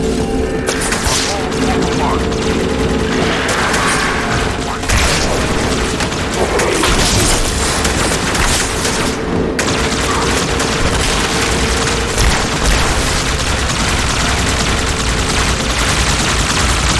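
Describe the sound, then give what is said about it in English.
A turret gun fires in a video game as continuous, loud, rapid gunfire. It forms a dense, unbroken barrage with heavy booms, going on without pause and with only brief shifts in intensity. “This turret gun has quite a lot of auto aim on it.”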